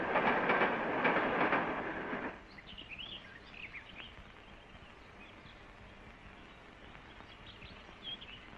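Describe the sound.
A train arriving at a station gives a loud rumble and clatter for about two seconds, then drops abruptly to a quiet background with a few faint high chirps.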